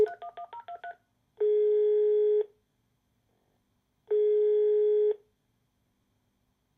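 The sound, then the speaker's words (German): A telephone number is keyed in as a rapid run of short keypad tones, followed by two long, even ringback tones with silent gaps between them and a third just beginning. The call goes unanswered. “Also auch jetzt noch, so im Jahr 2024. Nimmt da noch jemand ab? Und? Na, hör mal.”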